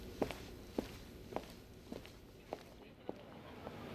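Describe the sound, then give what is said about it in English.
Footsteps walking away: seven evenly spaced, fairly soft steps in a regular pace over a low, steady background hum. “I walk away.”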